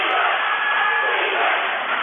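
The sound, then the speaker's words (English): Blue Hill fans at a basketball game chanting defense: a continuous, loud roar of many voices that holds steady from start to end. “Blue Hill crowd chanting defense.”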